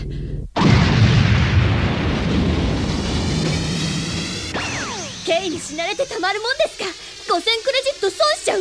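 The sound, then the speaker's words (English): An explosion as a rocket launcher blows up a computer to shut down a security system. A sudden loud blast gives way to a long roaring rumble, then a whoosh, and voices follow. “pulls out a rocket launcher and blows up the computer. Security system deactivates.”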